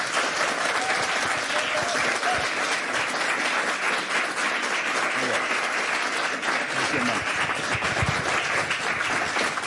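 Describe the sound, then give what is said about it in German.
Sustained audience applause welcomes a guest musician at an evening stage event. Dense, steady clapping holds at an even, loud level for the whole stretch without a break. “ich bitte um einen großen Applaus”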